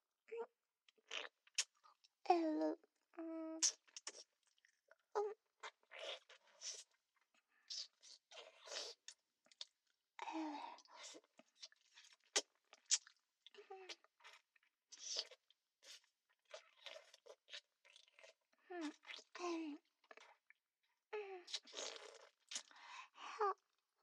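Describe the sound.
Crisp crunching and biting sounds come in many short, irregular bursts with brief quiet gaps between them. They continue throughout and are heard on their own, without talk.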